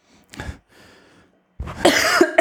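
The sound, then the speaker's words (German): A person coughing: a sharp cough, then a fainter breathy one, followed after a pause by a louder, longer raspy coughing fit. “Ja, wenn du husten musst, du husten.”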